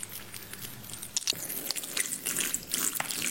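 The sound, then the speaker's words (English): Squishy, gushing water sounds come from a soaked rug being cleaned, with a continuous wet crackle and patter and small sloshing surges. “Are you just cleaning this rug? Oh, it's so gushy. Oh, that's crazy. I do that.”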